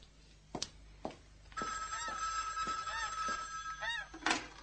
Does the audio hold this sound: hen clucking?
no

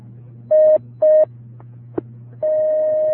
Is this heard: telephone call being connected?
yes

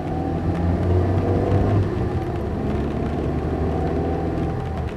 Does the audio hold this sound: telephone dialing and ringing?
no

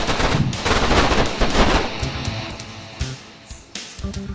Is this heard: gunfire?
yes

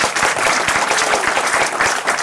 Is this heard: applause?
yes

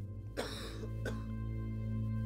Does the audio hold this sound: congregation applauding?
no

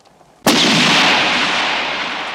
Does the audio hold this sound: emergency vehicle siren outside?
no

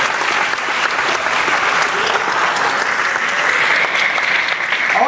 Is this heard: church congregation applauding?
yes

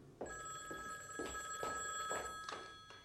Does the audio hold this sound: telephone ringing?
yes

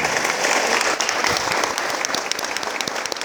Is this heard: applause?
yes

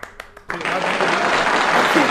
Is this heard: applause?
yes

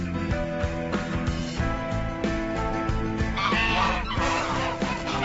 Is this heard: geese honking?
yes

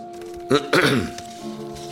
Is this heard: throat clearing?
yes

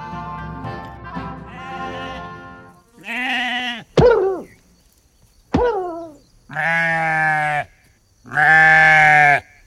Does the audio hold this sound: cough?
no

